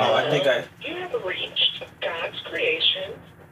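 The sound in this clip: Audio plays from a mobile phone as a tinny, band-limited voice that speaks continuously in short phrases with brief pauses between them.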